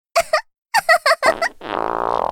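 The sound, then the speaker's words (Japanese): A long, buzzing fart escapes right after a few short vocal bursts, the flatulence rasping steadily and fairly loud for nearly a second before the end. “おっと、笑ったら漏れちゃった。おならでお腹いっぱいだから、制御難しくてさ。”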